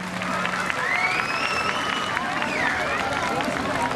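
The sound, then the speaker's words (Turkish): A festival crowd in Kırşehir's Cacabey Square claps as artists are called back on stage for a closing folk song. The rapid, quiet clapping mixes with crowd babble and a faint whistling tone. “Son türkümüzü hep bir ağızdan söylemek üzere bütün sanatçılarımızı kıymetli alkışlarınızla sahneye davet ediyoruz tekrar.”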